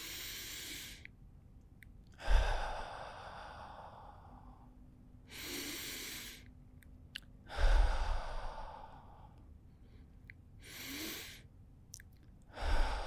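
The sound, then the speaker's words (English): Three deep breaths, each drawn in through the nose as a soft hiss and pushed out through the mouth as a louder, longer, airy exhale, in a slow and even rhythm. “So I want you to take three deep breaths in through your nose and out through the mouth.”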